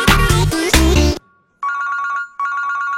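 A phone ringtone from an incoming call sounds as repeated, bright trilling bursts in two runs split by a short pause, following a loud, dense burst of other sound at the start.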